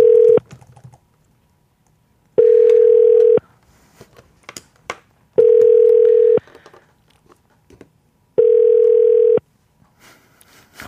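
Telephone ringback tone while a call is placed: four steady mid-pitched beeps about a second long, the first cut short, repeating at even intervals of roughly three seconds, with faint clicks in the silences between.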